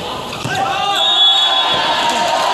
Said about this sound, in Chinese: 发球得分了